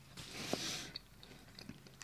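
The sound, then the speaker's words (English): Chewing on cookies, a soft, crumbly mastication with faint clicks and small smacks over a steady, noisy background. “We're live streaming our cookie eating here on Twitch for the morning show.”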